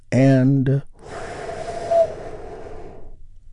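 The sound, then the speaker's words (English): A short voiced sound, then a long, steady, airy breath during a guided relaxation and healing exercise, slowly fading out. “take another big, deep, healing breath with me right now”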